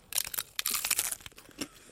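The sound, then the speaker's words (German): Crunchy bites into a crisp taco shell filled with fresh strawberries and quark: a faint run of crackling, splintering crunches, many in quick succession, then a few sparser ones. “Meine Taco, meine Muschel ist fertig befüllt. Du beißt rein. Ich beiß rein.”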